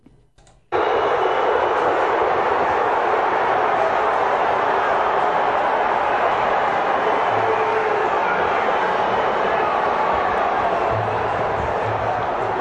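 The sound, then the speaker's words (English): A football crowd roars as Sunderland are relegated to the third tier of English football, a dense, steady wall of noise that starts abruptly and holds loud for about twelve seconds. “That is the sound of Sunderland being relegated yesterday.”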